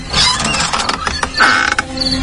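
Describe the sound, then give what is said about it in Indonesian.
A room door creaks open with rattling mechanical clicks and a short, strained creak in the middle, fairly loud and with no talk. “Aku langsung bangkit dan membuka pintu kamar,”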